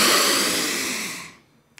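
A deep breath is drawn in during a diaphragm breathing exercise, a single steady airy rush lasting just over a second before it tails off into quiet.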